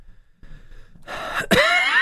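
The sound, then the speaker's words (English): A single cough from a throat tickle: a noisy intake of breath leads into one sharp, harsh burst that trails off rough and rasping at the end. “Excuse me. I'm getting this really annoying little tickle thing, and I cough and it doesn't do anything, so it's just annoying.”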